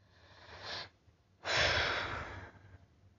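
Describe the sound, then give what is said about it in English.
Heavy breathing from someone with anxiety trying to catch their breath: two faint, airy breaths, a short one and then a longer, stronger exhale, with no talk. “I am trying to catch my breath”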